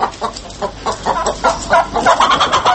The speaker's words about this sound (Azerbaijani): Xeyli sayda toyuq cücənin içərisində xallı tüklü Həştərxan toyuğu xüsusi diqqət çəkirdi.